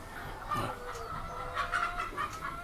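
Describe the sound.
Hens cluck in a henhouse holding around 1,800 to 2,000 birds. Scattered soft clucks and short calls rise over a low, steady background, faint overall.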